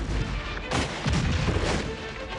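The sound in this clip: Artillery gunfire in a dense, loud barrage of booms and heavy rumble that runs the whole clip, with a sharper burst of blasts early on and no voices.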